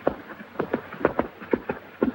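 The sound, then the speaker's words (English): Horse hooves thud on a dirt road as a rider arrives in a town, a quick, uneven run of dull clopping beats heard alone. “Stepping outside the saloon, Wallace looks around and sees John riding into town.”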